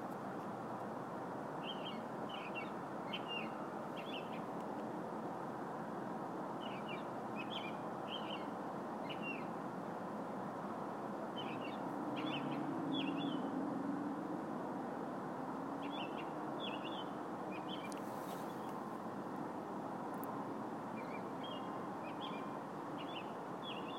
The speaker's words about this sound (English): I'm sorry about the noise. We got a bird out here that I wanted to record.